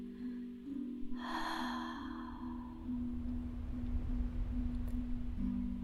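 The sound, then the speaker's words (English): A single slow, deep breath drawn in during a relaxation exercise, a soft airy rush lasting a second or so, set against a steady low drone that continues throughout. “Let's use a slow, deep breath to help this area become soft and relaxed.”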